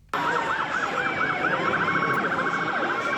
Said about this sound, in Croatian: Policijske sirene, blokirane ulice. Tako New York već tradicionalno zvuči i izgleda svakog rujna.